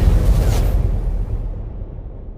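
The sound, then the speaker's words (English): An explosion sound effect opens with a loud, bass-heavy boom, then a deep rumble that slowly decays and thins over about two seconds. “Kaboom! You heard?”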